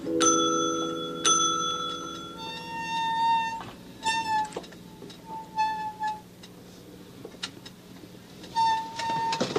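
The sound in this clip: A bell ringing with bright, clear tones: two strong struck rings at the start, then a run of lighter, quicker chiming notes that come and go with short pauses between.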